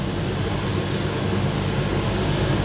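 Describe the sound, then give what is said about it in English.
An automated coffee roasting machine roasting coffee beans gives off a steady, dense whirring drone that stays even from start to end, with no talk. “We are able to craft this roll for him thanks to having an automated coffee roasting machine. So actually the recipe that we have is already inside, and then James is helping me with the hands and legs to actually roast the coffee beans.”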